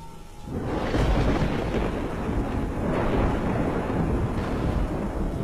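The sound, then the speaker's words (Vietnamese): Thunder from a lightning strike bursts in after a brief quieter moment and rolls on as a loud, deep, sustained rumble that barely lets up. “Tia sét chí tử đánh vào đầu, cái xác rít lên một tiếng, ở trên đỉnh đầu vỡ toác ra vì phải chịu cú sét đánh.”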